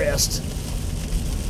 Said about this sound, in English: Sorry, I'm trying to drive, and it's really raining hard, folks.